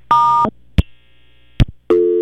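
Telephone line tones after a caller's line drops: a loud steady tone, a sharp click, a thin high sustained tone, another click, then a lower loud tone that runs to the end.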